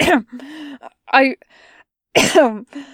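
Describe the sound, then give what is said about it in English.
A voice performs coughing and throat clearing in a few short, hoarse, voiced bursts separated by brief hums and pauses, loud and close. “Zhang Zheng coughs and says,”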